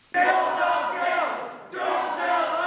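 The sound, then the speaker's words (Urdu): Protesters chant slogans in unison during a US vote on a Republican overhaul of the health care law, the Obamacare repeal debate. Two loud, sustained bursts of crowd chanting are separated by a brief dip. “نعرے لگاتے ہوئے مظاہرین امریکہ میں صحت کی دیکھ بھال کے قانون کی اثر نو تشکیل سے متعلق ریپبلکن ارکان کا موقف آگے بڑھانے پر ووٹنگ کو نہ روک سکے۔”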